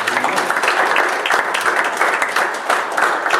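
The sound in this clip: A church audience applauding after a sermon, many hands clapping in a thick, continuous roar that stays loud and steady throughout.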